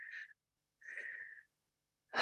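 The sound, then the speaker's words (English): Deep breathing, slow and quiet, in two soft airy breaths with a slight whistling edge, followed by the sharp start of a third. “I want to take a breath. Yep. Let's do it together.”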